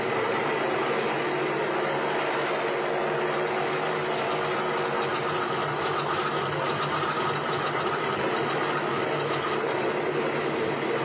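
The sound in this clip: An aircraft engine runs before take-off on a small plane carrying passengers and mail, giving a continuous loud drone with a rough low rumble that holds an even level throughout.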